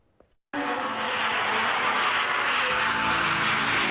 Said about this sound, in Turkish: Yerli insansız savaş uçağı bir kez daha test atışı için havalandı.